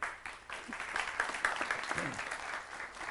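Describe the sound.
A television talk-show studio audience applauds with steady, even clapping, and faint voices mix into it.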